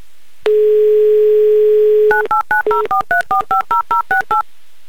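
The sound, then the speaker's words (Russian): A steady telephone dial tone hums for over a second, then a touch-tone number is dialed as a quick, even run of many short DTMF beeps of varying pitch. “Итак, набираю ваш номер.”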